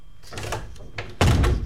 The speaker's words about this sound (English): So if you want to come with me, hop into the time machine. Okay, shut the door.